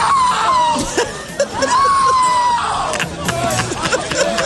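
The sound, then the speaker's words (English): A man screams in dismay amid a concert crowd after the awaited headliner fails to appear. His long, strained cries stand out over crowd shouting and babble. “Listen to this man scream.”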